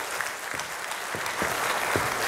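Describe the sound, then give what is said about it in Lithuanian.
An audience applauds to welcome a new guest, a dense, steady wash of clapping that holds at an even loudness and grows slightly stronger toward the end. “Panas ir ponai, plojimais pasitikime.”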